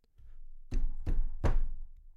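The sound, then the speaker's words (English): Three loud, solid knocks on a basement door, evenly spaced, with a low background rumble. “descended to the basement, knocking on the basement door with a plan.”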